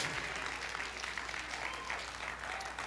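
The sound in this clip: An audience clapping their hands during a church sermon: continuous, even, dense applause with no gaps, fairly faint but steady from start to finish.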